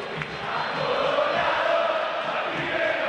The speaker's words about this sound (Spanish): El público de River que no para de alentar.